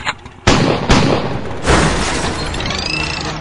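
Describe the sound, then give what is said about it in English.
Shotgun blasts: three loud, sharp booming reports spaced unevenly. Each trails into heavy noisy rumble, and a faint ringing tone follows at the end. “Taste my shotgun.”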